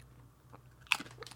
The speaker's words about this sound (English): These don't taste like anything. These taste like plain potato chips.